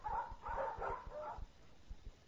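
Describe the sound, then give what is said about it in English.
A dog in a pet shop gives a few faint, high whining yips and whimpers, with soft rhythmic low thumps beneath. “Here's the pet shop. They're buying a dog.”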